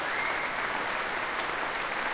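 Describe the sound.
An audience applauds the percussionists after an orchestral piece, a dense, even wash of clapping sustained throughout.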